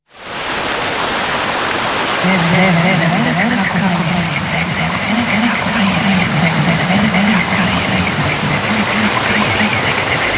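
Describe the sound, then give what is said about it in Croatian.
Rushing water at a water mill on the Gacka river, a loud, steady roar that swells in at the start and runs unbroken, with a low, wavering hum beneath it. “I tamo smo snimali reportažu i vratili smo se sa prekrasnim snimkama mlina, zvukova mlina.”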